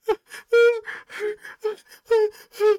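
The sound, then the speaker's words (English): Ragged gasps for air from a man who has collapsed after running: a rapid series of short, voiced, breathy inhales and whimpering cries, fairly loud and alone. “He runs up to you and just collapses, gasping for air at your feet.”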